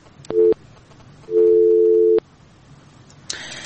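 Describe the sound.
Busy signal of a disconnected phone call: two steady, low-pitched tone bursts, a short one followed by a longer one, each ending abruptly, with a brief burst of noise near the end.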